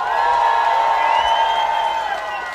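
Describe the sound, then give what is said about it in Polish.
A crowd of about 15,000 people at a Warsaw event cheers and makes noise. The roar is continuous and loud, with sustained shouts running through it for the whole clip. “tu naprawdę jest 15 tysięcy ludzi. Zróbcie wielki harmider.”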